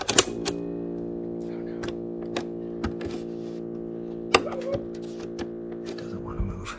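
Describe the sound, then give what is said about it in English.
Mechanical clicks and clunks as a reassembled, freshly repaired cassette tape is pushed into a tape player, several sharp taps scattered over a steady low hum. “And so we popped it into my tape player.”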